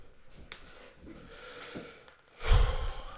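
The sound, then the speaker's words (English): A deep breath, loud and rushing near the end, follows a stretch of faint breathy sounds with no talk. “Sorry. I sure need to take a deep breath there.”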